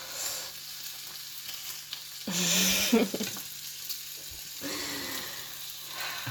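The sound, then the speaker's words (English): Breakfast sizzling as it fries in a pan: a steady crackle with two loud hissing surges, one midway and one near the end. No talk. “I'm in the middle of cooking you something. I'm cooking you breakfast”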